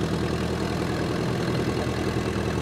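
A vehicle engine runs steadily, with a loud, even rumble and no clear rise in revs across the whole stretch.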